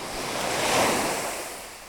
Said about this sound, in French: le côté agréable, c'est quand même d'avoir la mer tout autour.